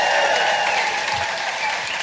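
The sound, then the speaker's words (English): An audience at a live show gives a round of applause. The clapping is dense and steady, staying loud and even the whole way through. “So I'd just like everyone to give my tour manager, Beck, an amazing round of applause for getting us here.”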